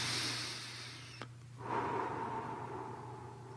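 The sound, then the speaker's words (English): A deep breath taken in a guided group meditation, heard as a soft, airy rush of breath that stops briefly and then resumes as a second, fuller breath, faint over a low steady hum. “just close your eyes, take a deep breath.”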